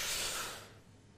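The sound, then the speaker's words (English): A person breathing in deeply: one soft, airy rush of breath that swells at the start and fades away over about half a second, heard alone. “I just want you to breathe in deeply”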